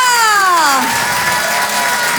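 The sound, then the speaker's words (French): Loud crowd cheering and applause for a comedian walking on at a French stand-up show, opening with a high shout that falls in pitch before settling into a dense, steady roar. “Je vous demande de l'encourager très chaleureusement, s'il vous plaît, faites du bruit pour Nathalie Boitel.”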